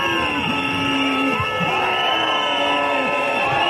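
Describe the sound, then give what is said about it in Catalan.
Crowd noise from striking teachers and municipal service workers protesting in the city hall square in Barcelona: a steady, loud, dense din with drawn-out pitched tones running through it from start to finish. “Aquest és el so de la protesta que hi ha hagut a plaça Sant Jaume.”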